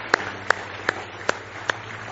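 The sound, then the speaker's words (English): Five sharp hand claps at a church service, evenly spaced and steady, quiet and alone over a low background hum. “Give him a big hand clap of praise tonight if you love him.”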